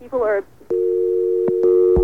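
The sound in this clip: Telephone dial tone after a call drops: a short burst of voice, then a steady, continuous hum that holds to the end, with a second tone layer joining near the finish and a couple of faint clicks.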